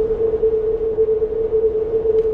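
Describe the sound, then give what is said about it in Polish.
A video game audio cue for a wall to the player's left: one steady, low-pitched humming tone holds unchanged for the whole clip, alone and fairly loud. “Ściana po twojej lewej.”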